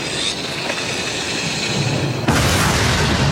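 A war-film explosion as soldiers blow up their own bunkers at a crusader fortress: a low steady rumble breaks into a sudden loud boom that stays loud to the end.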